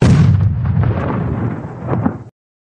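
A single loud artillery gun blast fired at Martian machines as a staged drama effect. It opens with a sharp burst, then rumbles on in a heavy decay before cutting off abruptly.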